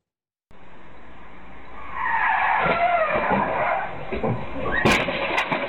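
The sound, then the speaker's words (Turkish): A car skids out of control on a street in Palandöken, Erzurum, before crashing into an electric pole, caught on a security camera. A rising tire screech and rushing noise build up, followed by a couple of sharp bangs near the end. “Gençlerin kıl payı kurtulduğu, aracınsa elektrik direğine çarparak durabildiği kaza anı güvenlik kamerasına saniye saniye yansıdı.”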